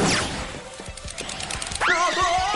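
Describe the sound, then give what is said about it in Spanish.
A cartoon slip on a banana peel ending in a crash into a wall, from an animated superhero adventure: noisy clatter with a few dull thumps, then a bright rising squeal near the end. “Flash resbala con un plátano y choca contra una pared.”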